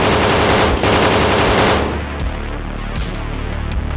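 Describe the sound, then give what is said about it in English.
Rapid gunfire from squad members shooting at a lifting-off craft, a dense, loud rattle of shots for about two seconds that then thins into quieter, scattered bursts. “the shots that they fire streak right through where the windshield was”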